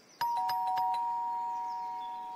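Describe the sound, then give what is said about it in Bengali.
A doorbell rings at a house: a quick run of bright, struck chime tones, then one long ringing note that fades slowly, heard alone without voices. “সেই সময় ডোর bell বাজল”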